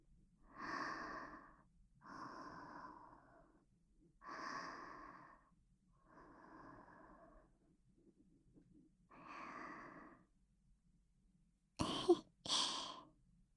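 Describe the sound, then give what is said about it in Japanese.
Close, slow breathing right by the ear, with five soft, airy breaths spaced evenly apart and then two short, sharper and louder bursts near the end. There is no talking. “うちの呼吸音聞こえとる？”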